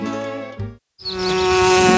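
Bees buzzing around flowers in a garden: a loud, continuous insect drone that cuts out briefly to silence, then returns as a sustained buzz that holds to the end.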